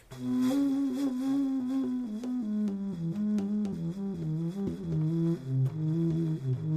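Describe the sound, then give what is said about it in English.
A contrabass flute, roughly 9.3 feet long, plays a slow line of many deep, breathy notes in its low register, moderately loud and unaccompanied. “The contrabass flute is an unbelievable 9.3 feet or 2.5 meters long, as wide as your two hands making a circle, and sounds like this.”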